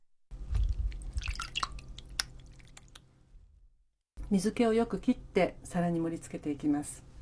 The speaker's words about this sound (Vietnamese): Trước khi đặt vào đĩa thì bạn hãy đặt đậu phụ lên tay để nước chảy bớt ra.